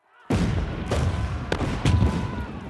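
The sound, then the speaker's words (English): Booming artillery and gunfire as loyal troops open fire on rebels trapped in their barracks. A sudden loud blast opens the sound, then a few more sharp reports crack over a continuous heavy rumble. “The Sultan has already ordered the barracks surrounded by artillery. Now, with the trap sprung, he orders the troops loyal to him to open fire.”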